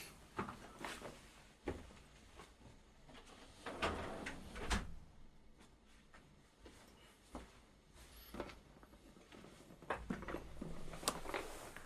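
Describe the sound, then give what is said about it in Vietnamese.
A door being closed, heard as a few faint thumps and clatters scattered through a quiet stretch, with no voices. “Đợi một chút mình đóng cửa cái.”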